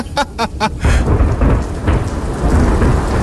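Heavy rain pours in a thunderstorm, a loud, dense, steady downpour with deep rumbling thunder running through it. A few brief tonal bursts come at the very start.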